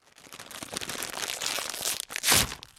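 Crunching salt and vinegar potato chips: bursts of crisp crackling and crunching chewing that build up, ending in one especially loud crunch.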